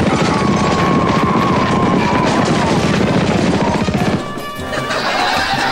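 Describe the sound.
A firing squad opens fire in a loud, dense burst of rapid gunfire that runs continuously for about four seconds, then cuts off and leaves a quieter tail.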